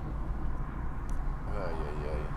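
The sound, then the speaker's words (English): Low engine rumble from a loud car driving right alongside, a dense, steady roar that stays heavy throughout. “Oh my god, I hate loud cars that drive right next to me. Hopefully you guys can hear this. This is ridiculous. Driving next to a loud ass car.”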